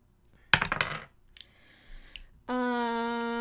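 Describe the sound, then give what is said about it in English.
Dice clatter sharply out of a box during a tabletop role-playing game: a loud, brief burst of rattling hits lasting about half a second. A faint rustle follows, then a steady, sustained harmonic tone. “If I can get my dice out of this dang box.”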